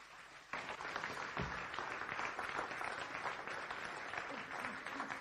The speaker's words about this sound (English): Jump to your feet. Let's put your hands together for Lottie as he comes this morning.